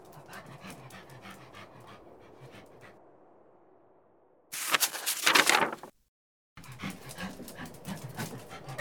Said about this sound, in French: Ce n'est pas un loup, c'est un chien.